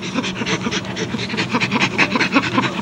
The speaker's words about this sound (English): That's chimpanzee laughter. That panting sound you hear is chimpanzee laughter.